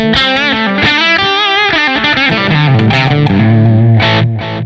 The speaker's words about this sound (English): Like if I play the guitar lightly, I could play chords on it. But if I play it hard,